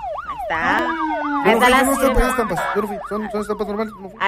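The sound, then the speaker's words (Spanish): A siren sound effect opens a security news segment. It is a loud, electronic wail that rises and falls in pitch over many quick cycles, with a steady lower tone underneath in the second half. “Ahí está la sirena de la información de seguridad.”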